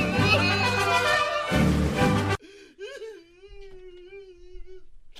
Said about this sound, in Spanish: ¿Por qué llora? ¿Por llora así como si fuera de, de, México? Llora como si fuera de México.